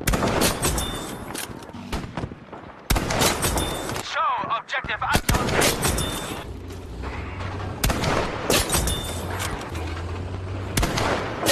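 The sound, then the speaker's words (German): Video game sound for killing an enemy with a headshot: loud, dense bursts of gunfire-like noise in several blocks separated by short gaps, with a brief warbling electronic tone in one gap. “Wenn man es also schafft, einen Gegner mit einem Kopfschuss zu erledigen, dann gibt es dieses eine Geräusch.”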